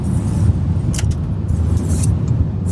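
A car driving through the city of Voronezh on a return from the south gives a steady, loud, low engine and road rumble. A few brief, high metallic clinks cut in over it.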